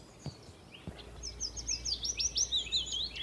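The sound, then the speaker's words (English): A willow warbler sings from a branch: a bright, cascading phrase of thin, high notes that tumble downward in quick succession. The bird is heard alone after a couple of soft low thumps early on. “A willow warbler. Here he is, just on the end of this branch here.”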